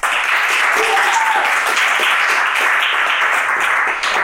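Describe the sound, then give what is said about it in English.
Audience applause for a third-year medical student introduced as a co-presenter at a college presentation: dense, steady clapping that stays loud and even for about four seconds. “Ladies and gentlemen, put your hands together for third-year medical student, Mr. Eric Wilson.”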